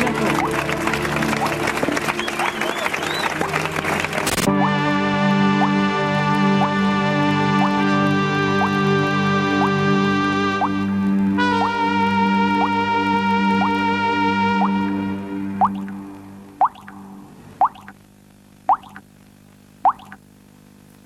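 Water drops fall one by one, five clear, ringing plinks spaced about a second apart. They follow a droning, repetitive musical piece that fades out just before them.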